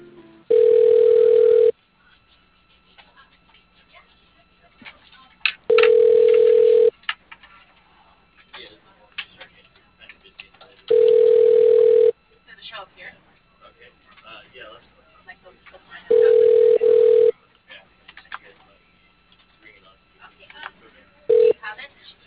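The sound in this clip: Telephone ringback tone as a call is transferred to voicemail: five long, steady low-pitched beeps spaced about five seconds apart, the last cut short, with faint line noise between them.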